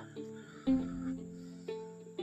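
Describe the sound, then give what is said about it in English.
Bees buzzing around: a faint, steady tonal hum with layered overtones that swells a few times, with no talking. “We keep having a bunch of bees buzzing around us.”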